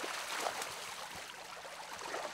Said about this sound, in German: öffnet den Abfluss von Teich 31. Das Wasser muss raus.